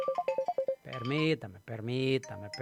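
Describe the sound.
A telephone ringing during a Spanish-language radio show, heard as a quick run of short, bright electronic tones. A voice follows immediately, speaking or singing in long sustained notes.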